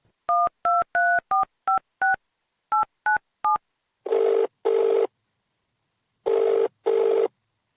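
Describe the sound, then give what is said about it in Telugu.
A telephone number is keyed in as a rapid string of short, bright keypad tones with a brief pause partway through. Two double ringing tones follow, separated by a gap. “Phone చేద్దాం.”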